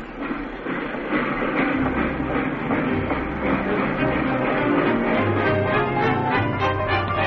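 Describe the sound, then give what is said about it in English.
A train rumbles steadily on the rails as it is about to leave, a loud continuous low roar with a rhythmic clattering texture that holds throughout, with no voices. “Oh, dear, the train. You'll have to run for it, quick.”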